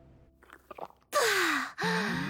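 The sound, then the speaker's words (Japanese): Someone drinking alcohol: a few soft gulping sounds, then a loud breathy exhale that turns into a voiced, falling sigh of satisfaction. “また飲んでる。”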